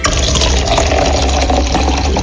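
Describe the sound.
Clean tap water running or being poured, a loud, continuous rushing wash with a low rumble underneath and no pauses or voices.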